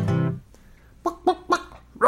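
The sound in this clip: A voice imitates a chicken clucking in a children's song, a sung opening note followed by four short, punchy clucks spaced at a steady rhythm.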